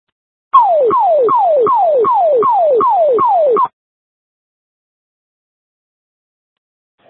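A fire-call dispatch alert tone plays as a rapid run of about eight identical falling electronic sweeps over roughly three seconds, loud and alone, then stops abruptly into silence.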